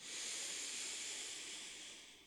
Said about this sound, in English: Let's do that twice more. Inhale in through the nose.